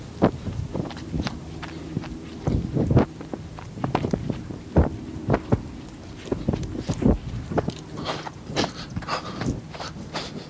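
People run over uneven, hilly terrain, their many irregular footfalls thudding and crunching over a constant rush of wind noise.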